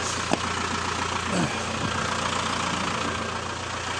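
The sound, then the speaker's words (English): A digger's engine idles steadily as it warms up after starting, a continuous low mechanical rumble with a faint knocking texture and no clear change in pace. “Give it a start and let it warm up.”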